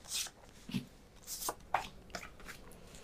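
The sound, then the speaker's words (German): Soft taps and slides of playing cards laid out one by one on a table during a card game. Several brief, faint card placements are spread irregularly over a quiet background. “Ich lege noch mal 6 Karten an.”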